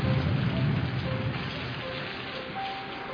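Heavy rain falling, a dense, steady hiss of drops that holds at a constant level throughout, with no voices.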